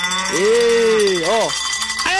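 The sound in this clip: A bell rings at a cattle pen where cows are milked. Its sustained metallic tones carry on beneath a loud, drawn-out voice that rises and dips in pitch.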